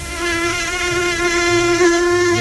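A mosquito buzzes in a steady, high-pitched whine that holds evenly and fairly loud for the whole moment, with no talk over it.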